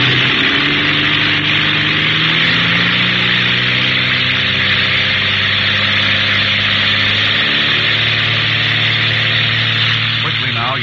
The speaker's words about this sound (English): Feathering on the propeller and open up the throttle